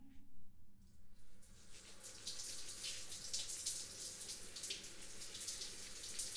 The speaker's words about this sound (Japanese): それではまずは髪をお湯で流しますね。